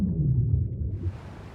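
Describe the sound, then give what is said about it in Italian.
Low moaning calls of a young whale calf underwater, steady tonal rumbles held against a constant hiss of water noise, fairly loud and unbroken for the whole stretch. “Il giorno in cui imparerà a pescare a 200 metri di profondità, il piccolo Finn sarà una balena vera e propria.”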